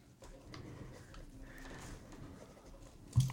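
A pen scratches across paper during a trivia quiz, with soft, irregular strokes at low volume and a short thump near the end.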